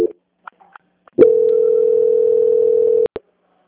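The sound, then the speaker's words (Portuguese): A telephone transfer tone plays as a bank's customer service call is passed to quality control: a few faint clicks, then one steady mid-pitched tone for about two seconds, ending with two sharp clicks. “Só um segundo, por favor, que eu vou transferir para o controle de qualidade. Tá bom. Transferência.”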